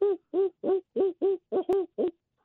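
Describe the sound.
Young barred owls give eight short, harmonic hooting calls in an uneven, halting rhythm. Each call is loud and clear, with brief gaps of differing length between them.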